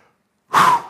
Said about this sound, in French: Soufflez comme ça et libérez-vous.